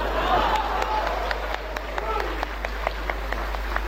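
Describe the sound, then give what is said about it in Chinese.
Scattered applause from a small audience after a sung passage, irregular claps of moderate loudness over a steady low hum. “我一唱完你们就鼓掌啊”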